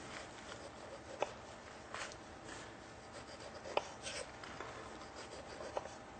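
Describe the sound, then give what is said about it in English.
A paring knife cuts straight down and around the pith of a piece of fruit. Its soft, steady rasping scrape is broken by a few sharp little clicks, and the whole sound stays faint. “just take our paring knife or a knife and just cut straight down. Turn this in towards you so you can see where this pith is here.”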